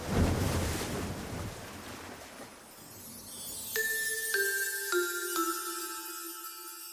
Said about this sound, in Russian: С глубины прорвался яркий луч света, вода забурлила и утянула бутылку вниз.